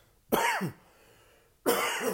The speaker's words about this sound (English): So apologize for the cough.